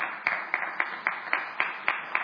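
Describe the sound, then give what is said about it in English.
An audience claps for the moms at a school gathering, about eight fairly even, rhythmic claps rising from a steady, soft wash of crowd noise. “Aren't you glad we have our moms here today? Why don't you guys give them a round of applause?”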